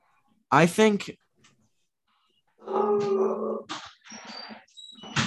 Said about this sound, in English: That's my dog. My apologies.